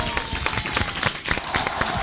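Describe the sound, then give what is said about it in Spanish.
Audience applause at a live comedy performance: many sharp hand claps in a loose, uneven rhythm, fairly busy and moderately loud throughout. “A ver, ríanse todos. A ver si me regalan un aplauso, así lo pasamos.”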